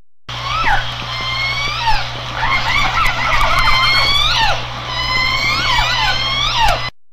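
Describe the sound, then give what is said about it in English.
Killer whale pod calls, with many overlapping whistles and squeals sweeping up and down in pitch over a steady low hum, continuing almost without a break. “Of course, that was a sampling of the language of orcas.”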